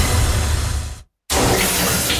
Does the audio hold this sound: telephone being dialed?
no